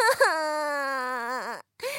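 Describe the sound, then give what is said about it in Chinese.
An acted cry of a mother sobbing sadly in a children's story: one sustained, high, wavering wail that dips in pitch at the end and breaks off, followed by a brief sniffling sound. “妈妈竟然哭了起来，她一直哭，一直哭，哭得好伤心呐。”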